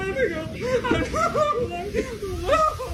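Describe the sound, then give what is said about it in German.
Riders on a whitewater ride wail and sob, and laughter mixes in with the crying. The voices are continuous and wavering, rising and falling in pitch, with several people sounding at once. “Sehr unbändige Freude gepaart mit bitterlichem Weinen. Stell dir mal vor, du sitzt auf so einer Wildwasserbahn und weinst.”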